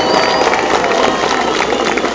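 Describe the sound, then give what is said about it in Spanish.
An audience applauds the news media, a steady roar of many hands clapping mixed with crowd murmur that holds a constant, fairly loud level throughout. “Un aplauso para los medios de información.”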